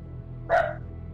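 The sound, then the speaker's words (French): A person imitates a dog with a single short, mid-pitched bark-like yelp, heard alone over a low background hum. “Et en plus, tu aboies en même temps.”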